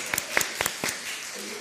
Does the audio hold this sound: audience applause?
yes